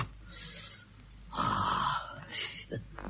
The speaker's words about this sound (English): Are you all right? If I can get my breath back.